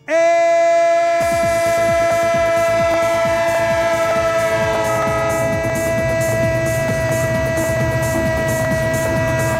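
A train sound effect: a loud, steady, horn-like tonal drone starts abruptly and holds for several seconds over a regular, rhythmic pulsing clatter.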